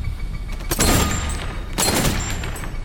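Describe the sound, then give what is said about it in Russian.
Gunfire rings out in a shootout aboard a train in a film scene. Two loud, sustained bursts of rapid shots crack over a heavy, booming background. “Кёртис стреляет в ответ. Начинается перестрелка.”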